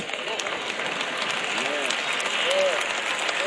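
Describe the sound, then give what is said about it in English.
Audience clapping during a spoken address, a continuous, fairly even patter of claps with voices faintly mixed in. “Y'all notice how the claps are getting lower and lower and lower.”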